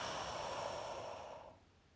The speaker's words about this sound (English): Deep breath in. And out.